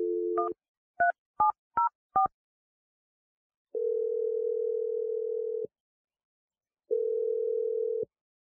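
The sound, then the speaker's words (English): A telephone number is dialed: a short dial tone, four quick keypad beeps of differing pitch, then two long, even ringing tones separated by a pause. “So I'm going to dial Sandra's number.”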